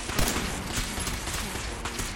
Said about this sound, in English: Who else is shooting?